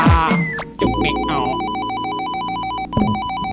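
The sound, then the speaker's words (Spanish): An electronic telephone ringtone pulses loudly in a rapid, repeating pattern of high beeps for several seconds, opened by a brief jumble of other sounds. “Una llamada para el MC le reta. Cójalo.”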